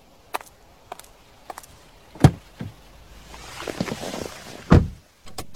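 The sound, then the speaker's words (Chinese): A car door pulled open at a roadside at night: a few light taps, then a heavy thunk, a soft rustle, and a second, louder thunk against a quiet background. “拉开车门一坐上去”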